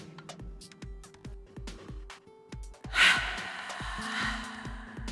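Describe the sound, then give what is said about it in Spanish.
A deep inhale, a long airy breath drawn in midway through, rising above a soft, evenly pulsing low beat that continues throughout. “Inhala profundo.”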